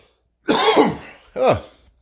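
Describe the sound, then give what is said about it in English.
Two harsh coughs from a person, the first longer and rougher and the second shorter, separated by a brief pause and heard alone. “There was the cough. I knew it was coming.”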